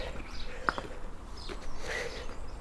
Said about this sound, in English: Yeah, just the sparrows, the house sparrows around the buildings here. They so love being beside humans.